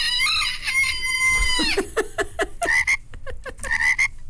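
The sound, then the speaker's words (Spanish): A chicken sound effect from a toy farm comes out strange: a sustained, high, harmonic call that bends downward, then a quick run of short croaking, cluck-like pulses, loud and alone. “El pollo se habló muy raro el día de hoy.”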